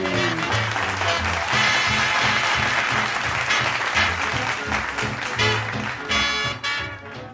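Studio audience applause at a quiz show, a loud, dense wash of clapping and cheering that holds steady throughout over a rhythmic backing tune, then thins near the end.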